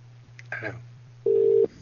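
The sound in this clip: A ringing tone sounds on a telephone call that no one answers. One steady mid-pitched tone lasts under half a second, and the start of another follows, over a constant low hum after a brief faint sound.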